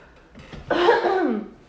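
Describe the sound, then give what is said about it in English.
A single harsh cough, turned away from the microphone, bursts out loudly after a few softer breathy sounds and trails off in a raspy, throat-clearing tail. “I coughed away from the microphone.”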